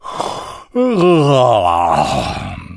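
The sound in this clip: A human voice imitates a lion king's wide-mouthed yawn: a quick intake of breath, then one long, loud groaning tone that dips in pitch and wavers before trailing away.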